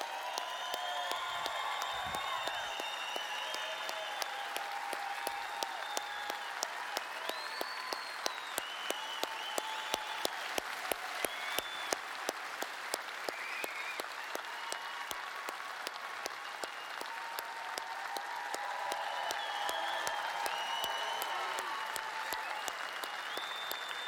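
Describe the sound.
A church audience applauds to welcome a founding pastor and his wife to the stage at a 30-year celebration: sustained, steady clapping from a large crowd with scattered whoops and whistles on top.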